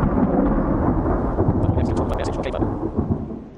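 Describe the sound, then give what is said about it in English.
Thunder rumbles loud and continuously over steady rain, forming a dense, unbroken roar throughout. “mind the thunderclap”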